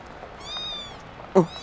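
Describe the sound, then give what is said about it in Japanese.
A house cat gives one faint, drawn-out meow, a thin mewing cry that tails off softly, outdoors near moored cruise boats, followed a moment later by a brief soft knock. “ほら、猫。猫が、”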